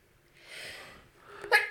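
A single sneeze: a soft drawn-in breath swells, eases, then ends in a sharp, brief explosive burst, moderately quiet and with no other sound.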